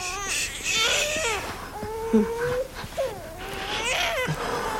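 A baby boy, thought to have a stomach ache, cries continuously, with wavering, high-pitched wails that rise and fall in loud, sobbing bursts.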